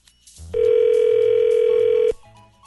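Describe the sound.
A sustained, steady mid-pitched telephone tone plays for about a second and a half as a call is put through to another person's line, with a faint low hum before and after it.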